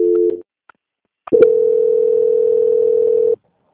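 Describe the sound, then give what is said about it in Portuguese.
A telephone line tone during a call transfer: a brief tone, a short silence, then a steady, sustained mid-pitched tone lasting about two seconds that cuts off abruptly. “Vou transferir você para o controle de qualidade, que vai dar continuidade na contratação. Tá bom. Só um momentinho. Transferência.”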